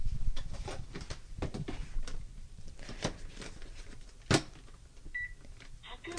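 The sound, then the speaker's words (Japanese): A rice cooker gives short electronic beeps as its regular cooking button is pressed. The pot holds rice with salted kombu, cabbage and pork. Two brief high beeps come near the end, after some light handling clatter. “普通炊きの炊飯ボタンを押しました”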